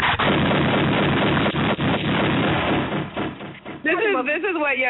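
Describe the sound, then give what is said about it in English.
A gunshot sound effect erupts as a loud, dense burst of noise that rumbles on for several seconds, and a voice starts speaking as it ends. “This is what your homie does when he finds out you get married. You get shot.”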